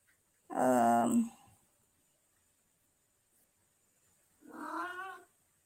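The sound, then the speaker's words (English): A cat meows twice. The first cry is loud and drawn out, and after a long silence a second, slightly fainter meow follows. “I'm sorry for the cat.”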